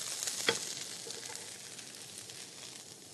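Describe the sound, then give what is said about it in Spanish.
Oil sizzles and crackles steadily as ingredients are sautéed in a pan, with one sharper pop early on over the continuous frying hiss. “Pasar a un plato mientras que vamos a sofreír el resto de los ingredientes.”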